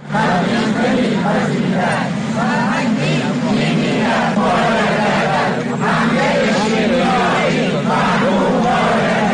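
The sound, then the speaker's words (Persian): Teachers chant together at a protest rally in Kermanshah. The crowd's voices form a dense, steady, continuous roar with rhythmic shouted phrases. “این صدای معلمان در کرمانشاه در تجمع امروز بود”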